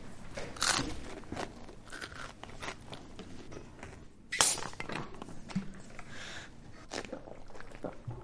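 Children biting into an apple and crispbread make crisp crunches and chewing sounds, a few sharper bites standing out from the irregular, moderately loud munching.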